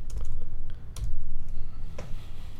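Calculator keys tapped as numbers are entered, a quick run of light plastic clicks with brief pauses between bursts, over a low steady rumble.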